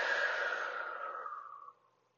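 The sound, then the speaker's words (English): A single deep breath out, a long, soft, airy exhale that holds steady and then tapers away after under two seconds, heard alone and quietly. “Two more like that, breathing in and breathing out.”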